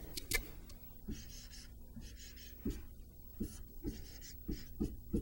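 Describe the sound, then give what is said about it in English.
A pen scratches faintly as math symbols are written out by hand for a calculus related rates problem. Soft strokes are broken by many small taps of the tip against the writing surface. “I want to write it all out here”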